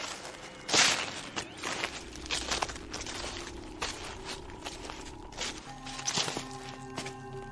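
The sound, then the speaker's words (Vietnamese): Shuffling, dragging footsteps of someone following close behind, a run of soft scuffs and papery crunches at an uneven pace, with a low sustained tone entering toward the end. “thì bỗng dưng sau lưng lão vang lên tiếng loẹt xòa loẹt xoẹt, cứ như là có ai đang đi theo.”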